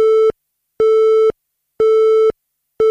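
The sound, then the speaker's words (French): A telephone busy tone sounds after a call drops: a steady single-pitched beep repeating on and off in an even rhythm, about half a second on and half a second off. It plays loudly and alone, with three full beeps and the start of a fourth. “Je n'entends pas très bien, la connexion n'est pas bonne ici. Attends, je vais me déplacer sur le bord du nuage. Allô ? Ah zut, ça a coupé.”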